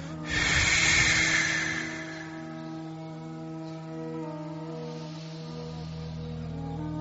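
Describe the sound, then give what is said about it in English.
A single slow breath during a guided breathing exercise, a soft airy rush lasting over a second before fading, followed by quiet with a steady electrical hum underneath. “Please let us breathe out a little bit more than we breathe in.”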